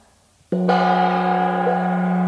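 A gong sounds in a cinema, struck once and ringing out with a steady, rich tone full of bright overtones that holds unbroken to the end, with no talk.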